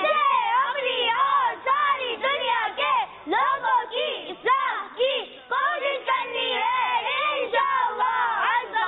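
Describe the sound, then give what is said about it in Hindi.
Audience of voices chanting a religious slogan together, loud shouted phrases repeating in a steady rhythm with short gaps between them. “लेकिन जाने से पहले नारा लगाते हैं हमारा मदनी मकसद क्या है।”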